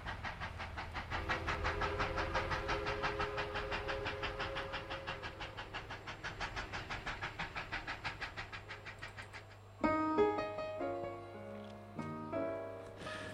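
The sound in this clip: Railway carriage sound effect: a rapid, steady clickety-clack of wheels over a low rumble runs for most of the sound, then gives way to a short, bright multi-tone train whistle near the end.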